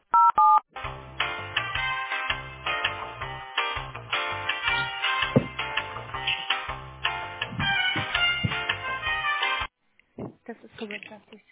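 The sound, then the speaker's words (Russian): Telephone keypad tones dial an extension on a company's automated phone line: a short burst of tones at the start, then a long stretch of loud, buzzy tonal line audio that cuts off near the end. “Если вы знаете внутренний номер сотрудника, наберите...”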